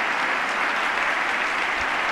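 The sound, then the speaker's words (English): Crowd applause at a political speech: dense, steady clapping that holds at an even, fairly loud level from start to finish, with no single voice standing out. “And a big crowd of applause there.”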